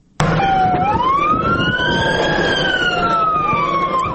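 Ambulance siren on the way to a hospital emergency ward in Lashkar Gah, Afghanistan: one loud, continuous wail that sweeps up in pitch, peaks midway, slides back down, then starts climbing again, beginning abruptly after a moment of quiet.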